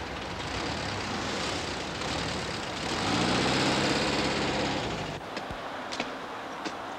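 A vehicle engine runs steadily as it drives on, a continuous low rumble that swells louder with a droning tone mid-clip, then eases back, with a few light clicks near the end.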